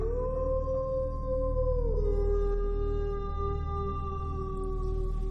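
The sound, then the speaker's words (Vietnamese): A dog in a neighbour's yard gives one long, sustained howl that holds steady, then dips in pitch partway through and carries on at the lower note, over a low background hum. “Phía bên kia nhà hàng xóm có một con chó đang ngủ ngoài sân. Nghe được âm thanh ấy, nó liền chồm dậy, ngẩng cao đầu sủa liên tục, lâu lâu lại tru lên, nghe đến lạnh người.”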